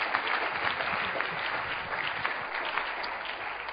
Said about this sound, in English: Clap your hands for the Lord.